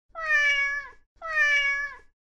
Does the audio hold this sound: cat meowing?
yes